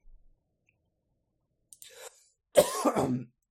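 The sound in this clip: A person sneezes: a faint breathy intake, then a louder voiced burst, set against near silence.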